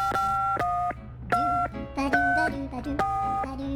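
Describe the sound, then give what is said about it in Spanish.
Telephone keypad tones as a number is dialed to a phone in the United States: several short beeping tones of differing pitch follow one another in quick succession, with brief gaps between them. “Le voy a marcar de inmediato, amigo. Vamos a marcarle de inmediato al presidente.”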